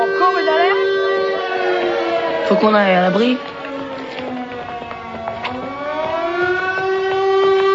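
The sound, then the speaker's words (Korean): An air-raid alarm siren sounding at a school, a steady harmonic wail that dips and swoops in pitch before climbing back, holding loud and continuous throughout. “그 순간 또 경보 사이렌이 울려 퍼집니다.”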